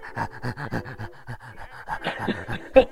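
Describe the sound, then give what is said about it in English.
Rapid dog panting from a big, contented dog sitting close with its mouth open: a quick, rhythmic run of short breathy pants, followed by a few scattered, fainter breaths and one brief louder sound near the end. “leaning up against him and just looking up at you with this panting big dog smile”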